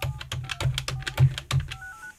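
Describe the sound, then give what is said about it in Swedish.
Keypad tones of a telephone number being dialed: many short, bright beeps in quick, slightly uneven succession, each press marked by a soft click, with a steadier pair of tones at the end. “Jag ringer upp honom.”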